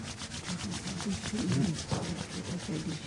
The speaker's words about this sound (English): Rub your palms.